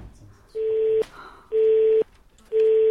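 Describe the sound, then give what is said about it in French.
Telephone busy tone on a medical office line after the caller hangs up: steady, mid-pitched beeps about half a second long, evenly spaced with equal gaps, three in all with the last running to the end. “Elle raccroche.”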